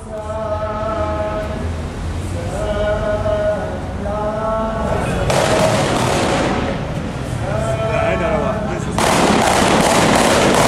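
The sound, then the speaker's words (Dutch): Gunfire shot into the air in Beirut, heard as two sustained, crackling volleys that break in over loud shouting voices and run for a second or more each. “Er wordt heel veel in de lucht geschoten, maar door mannen die duidelijk niet heel voorzichtig met de wapens omgaan.”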